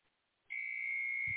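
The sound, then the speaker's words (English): A hard-boiled egg maker's alarm sounds in a house: a single steady, high-pitched electronic tone starts after a moment of near silence and holds unbroken to the end. “Alarm going off. It's just our egg boiler, hard-boiled egg maker, whatever, in the house.”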